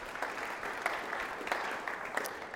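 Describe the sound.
An audience applauds to welcome a speaker to the podium, a fairly faint, steady patter of many hands clapping with a few sharper claps standing out.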